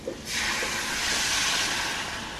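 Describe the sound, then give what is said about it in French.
Sizzling hiss of a pan deglazed with savagnin wine after curry powder and bergamot zest were sweated in it. A loud, steady hiss starts after a brief quiet moment and holds to the end. “On va déglacer au vin de savagnin.”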